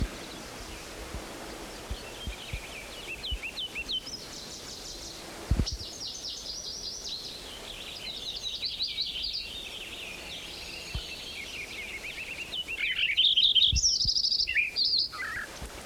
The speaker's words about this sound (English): Wilson's Warbler in there.